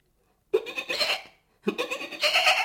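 A young goat bleats twice, two bright, wavering calls separated by a short pause, each lasting under a second, with nothing else around them.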